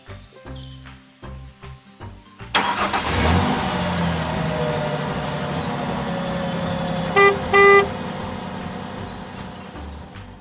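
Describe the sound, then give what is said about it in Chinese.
A delivery truck drives along, its engine rising into a loud, steady rumble, then its horn gives two short honks near the end. “My daddy is a truck driver 我的爸爸是一位货车司机 He drives around delivering goods.”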